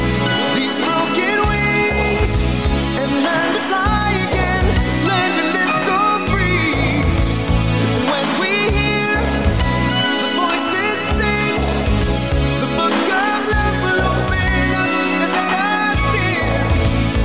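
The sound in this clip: A 1985 pop hit played as a sample. Full band music with a steady rhythmic low end and layered keyboard and synth textures runs loud and continuous at an even level.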